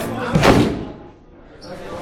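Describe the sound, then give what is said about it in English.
A boarding-school classroom door is slammed shut, giving a single heavy, booming thud that fades quickly into a low, hushed background. “He turns his compact body and saunters through a classroom doorway, slamming the door shut behind him.”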